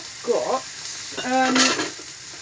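Food sizzles and hisses as it fries on a griddle pan, with two fairly quiet bursts of crackling sizzle over a low, steady background.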